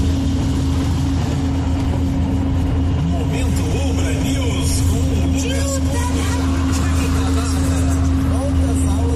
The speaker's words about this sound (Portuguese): Ele dirigindo na estrada e a buraqueira aparecendo aí, isso que ele mandou, só pra ilustrar aqui.